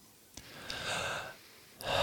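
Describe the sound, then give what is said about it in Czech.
Breathing sounds during a breathwork exercise: two airy, breathy breaths, the first swelling and holding for about a second before easing off, the second starting sharply near the end, with no talk. “Nádech, výdech”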